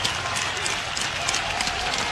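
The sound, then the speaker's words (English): Baseball stadium crowd cheering with runners on first and third, a steady, dense roar of voices and clapping that holds at an even loudness throughout, with no single voice standing out. “Runners at the corners. Crowd comes to life here.”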